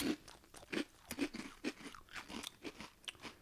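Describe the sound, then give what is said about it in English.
A turmeric flavoured breadstick crunches as someone bites and chews it. There is a quiet, rapid run of many crisp snaps and chews in an uneven rhythm. “This one is, a turmeric flavoured breadstick. It looks turmeric coloured.”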